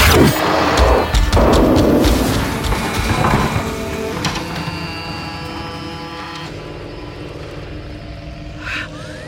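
A Villengard futuristic weapon firing photon blasts at an armored creature: a dense, noisy roar of crashing bursts that gradually thins out, with a faint high tone and a brief flare near the end.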